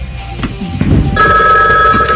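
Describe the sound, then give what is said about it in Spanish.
A telephone rings with a loud, continuous electronic trill. It starts partway through, after a short stretch of mixed background sound, and keeps going to the end. “¡Te digo que desconectes el teléfono!”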